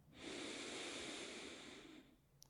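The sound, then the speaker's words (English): A single long, deep inhaled breath, a steady airy rush that swells quickly and holds for about two seconds, then fades, followed by a couple of faint clicks. “Let's take a deep breath, all of us right now. Inhale.”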